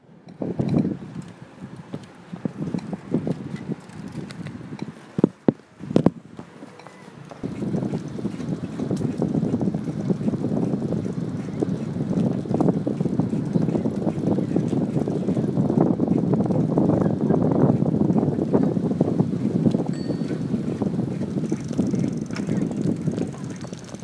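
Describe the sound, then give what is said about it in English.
Bicycle ride outdoors through Copenhagen streets, with steady wind buffeting and a rolling rumble throughout, broken by a few sharp clicks early on. “As you may have guessed, this is a clip of me biking.”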